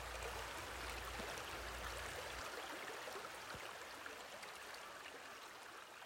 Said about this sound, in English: Listen to the stream of the creek. Do you hear the waters trickling?